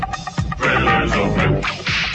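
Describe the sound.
A couple of sharp whip cracks snap out over a loud, dense, continuous wash of sound, each crack short and bright.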